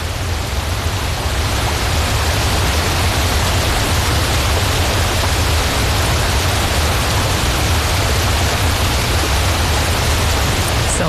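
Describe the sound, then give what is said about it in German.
Roar of the Giessbach waterfall, which drops over 14 cascades and 500 metres in total into Lake Brienz: a steady, dense, unbroken rush of water that never rises or falls, with no voices. “Der Giessbach stürzt über 14 Kaskaden und eine Gesamtlänge von 500 Meter runter in Brienzer See”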